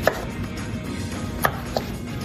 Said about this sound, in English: let's cut up some zucchini and we'll try it again. I'll give you some strips to cut, okay?